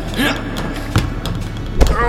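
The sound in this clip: Dodgeballs strike targets in a video game, giving two dull, punchy thuds about a second apart over a constant wash of background game sound.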